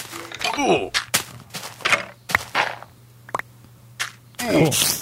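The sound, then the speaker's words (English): A skeleton enemy shooting arrows at the player in a video game: a run of sharp, irregular bursts and thuds over a steady low hum. “there is a skeleton over there shooting at me now”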